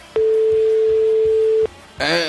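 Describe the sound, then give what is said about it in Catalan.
A telephone call being placed to someone, heard as one long steady mid-pitched ringing tone of about a second and a half, then a voice begins talking. “Doncs anem a trucar a aquest personatge a veure què ens explica aquesta aventura.”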